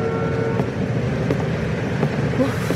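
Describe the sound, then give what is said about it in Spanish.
Road traffic: a dense, continuous rumble of vehicles with faint engine tones, steady throughout. “Uf, ¡qué tráfico tan terrible!”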